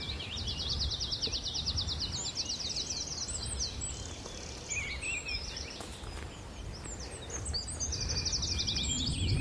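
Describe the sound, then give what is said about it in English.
Tree pipit song on Sugar Loaf mountain: rapid, high-pitched trilled phrases at the start and again at the end, with scattered chirps from other birds between them over a steady low background rumble. “Almost too much bird life to try and keep up with here. There we go. Tree pipit.”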